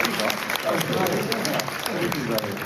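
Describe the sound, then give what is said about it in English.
A live music show audience breaks into thick, continuous applause with scattered sharp claps, while voices talk over the clapping throughout. “Give them a huge round of applause.”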